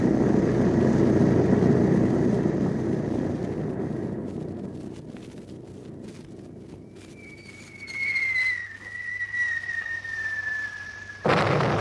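Bombs exploding in a bombing raid: a heavy, rumbling roar that gradually subsides, then a sustained high whistling tone that slides gently lower before the sound cuts off abruptly.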